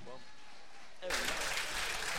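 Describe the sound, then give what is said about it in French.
Audience applause for the master of ceremonies at a Johnny Hallyday tribute evening bursts in after about a second of near quiet, then carries on as dense, even clapping to the end. “La suite du programme avec notre maître de cérémonie, Monsieur Seb, sous vos applaudissements.”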